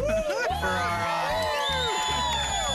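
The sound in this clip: Audience cheering and whooping, a loud, continuous roar with shrill yells and whistle-like cries rising over dense crowd noise throughout.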